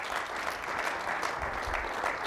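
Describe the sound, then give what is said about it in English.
Applause from a church audience, steady dense clapping that holds at an even level for the whole stretch, with no voices over it. “Let's give the Lord a good clap offering.”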